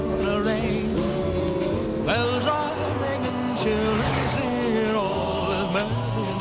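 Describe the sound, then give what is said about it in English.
A shabby blue-gray van drives along a snowy highway, its engine making a steady, continuous drone at an even level throughout. “A shabby blue-gray van drives along.”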